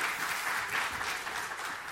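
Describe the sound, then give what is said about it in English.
Applause for the Christmas tree decorators at a festive gathering: a dense, steady patter of many hands clapping that holds at an even level throughout. “Big round of applause there for the Christmas tree decorators.”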